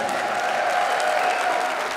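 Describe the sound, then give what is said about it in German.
Festival audience at the Passionstheater applauds to welcome a Latin-pop singer to the stage, a thick, continuous roar of clapping at a steady, loud level with a faint sustained tone underneath. “Begrüßt bitte mit einem Riesenapplaus”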